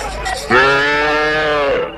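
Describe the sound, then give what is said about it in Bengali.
A bullock lowing as bullock carts approach: one long, loud, drawn-out moo with rich harmonics, holding steady before trailing off over faint background noise. “ওই তো কয়েকটা গরুর গাড়ি আসছে”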